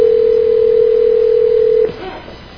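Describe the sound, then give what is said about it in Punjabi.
A loud, steady telephone tone holds on one pitch during a call attempt, then cuts off abruptly just under two seconds in, leaving faint line noise. “ਲਓ ਆਪਾਂ ਉਨ੍ਹਾਂ ਨੂੰ ਕਾਲ ਦਿੰਦੇ ਆ”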